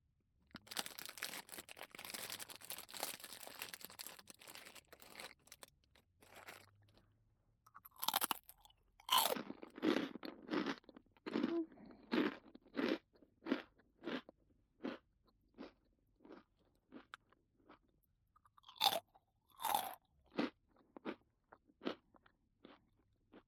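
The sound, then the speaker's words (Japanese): Crunchy rice crackers being bitten and chewed, heard as many sharp, dry crunches in an uneven rhythm. A stretch of steady crackling noise comes first, before the crunches. “先生ね、このおせんべい好きなんだ。”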